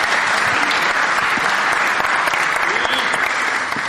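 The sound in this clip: Loud audience applause welcomes a speaker coming up to address a morning gathering, a dense, steady stream of clapping that carries on without a break.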